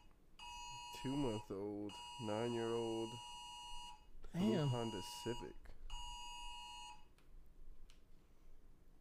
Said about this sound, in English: If you wonder what that noise was, we just got an Amber Alert in our area. And my shit was on silent. It totally disregarded the silent button.